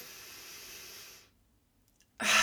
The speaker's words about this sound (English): Sometimes I start each episode with a breath. I'd like to do that right now. I would like everyone with me just to take a deep breath in